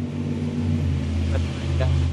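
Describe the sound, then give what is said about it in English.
A loud truck driving around outside a house makes a deep droning engine rumble with strong low hum that holds steady and heavy for the whole moment. “someone like using the loudest truck ever, like running around my house”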